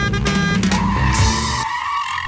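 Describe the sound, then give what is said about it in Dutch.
A car is started and driven off, with a loud, continuous engine and a screech of skidding tyres, ending abruptly in a lower hum. “starten we de auto.”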